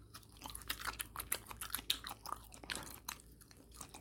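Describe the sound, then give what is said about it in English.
Chewing and crunching on a homemade molded candy bunny, with many crisp bites and munches in an irregular rhythm. The sound is fairly soft and no one talks. “Oh, check it out, I made my own candy bunny rabbit. I love it. Let's see how it tastes.”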